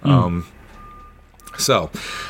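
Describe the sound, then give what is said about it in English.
Vehicle reversing beeps come through as a thin, steady high electronic tone in a few long stretches, partly masked by people talking over it. “I find the timing of the reverse noise to be quite funny there, actually. Back that thing up.”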